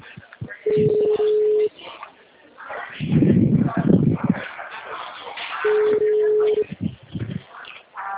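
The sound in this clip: A telephone rings in two long, steady electronic bursts, several seconds apart, with people talking between the rings.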